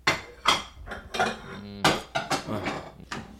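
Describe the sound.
Pots, pans and utensils clatter while breakfast is being made, a quick irregular series of metallic clanks and knocks with one brief ringing tone midway, and no talk.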